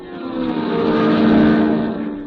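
Race car number 11 pulls away onto a racing lap with 24 laps left in the race, a sustained engine roar that swells, holds and then eases slightly.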